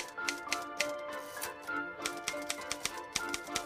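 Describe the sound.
Typewriter keys clack in a quick, uneven run of many sharp strikes as a woman types a sentence on a typewriter, with a few louder strokes standing out near the end.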